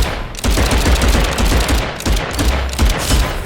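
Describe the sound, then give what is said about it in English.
Submachine gun fire in a video game: loud, rapid automatic bursts run almost continuously, broken by a few brief pauses. “Submachine gun 50 ammo. I should actually use a different weapon this time.”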